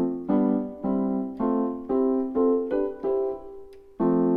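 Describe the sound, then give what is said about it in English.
An F major chord with C as the top melody note is struck eight times, each strike ringing and decaying before the next. The chords come at a steady pace, with a longer held chord before the final loud strike. “but if we started with the F chord, it would sound like this.”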